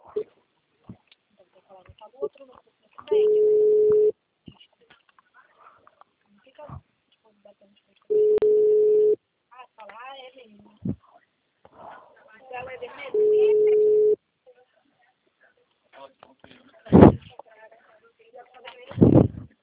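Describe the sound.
Telephone line tone after a dropped call: three steady, mid-pitched beeps, each about a second long and spaced roughly five seconds apart, with faint talk and handling noise in the gaps.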